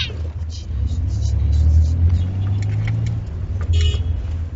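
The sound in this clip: A car stops and reverses, giving a steady low engine rumble that swells slightly mid-clip and then eases back, with faint lighter rattles on top.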